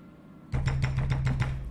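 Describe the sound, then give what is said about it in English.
Knocking on a door: after a short quiet stretch, a quick, evenly spaced run of firm knocks over a steady low hum. “Knock on the door.”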